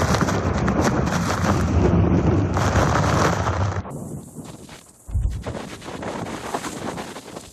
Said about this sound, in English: These are the worst winds that we've gotten all night.